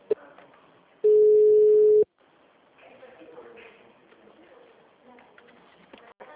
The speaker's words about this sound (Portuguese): caiu a ligação. Viu? Então, eu vou precisar ligar pro senhor do mesmo jeito, tá?